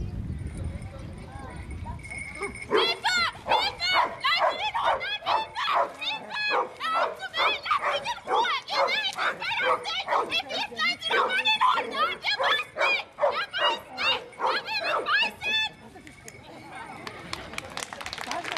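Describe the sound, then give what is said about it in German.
Rescue dogs barking during search training: a loud, rapid, unbroken series of many sharp barks that fills most of the stretch, then stops shortly before the end. “da die Hunde auch in engen Räumen oder sogar unter schwierigen Einflüssen bei ihrem Ziel bleiben und weiter bellen müssen.”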